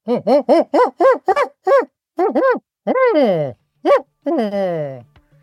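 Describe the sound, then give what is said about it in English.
A man imitates an agitated spotted owl call, voicing a rapid run of short, barking hoots followed by a few longer, drawn-out cries separated by pauses. “impersonating a spotted owl”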